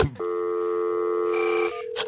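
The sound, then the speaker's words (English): Telephone tones sound as a call is placed to a church: a steady, buzzy electronic tone holds for over a second, changes briefly near the end, then stops with a short burst of noise. “So now I'm calling the Baptist church.”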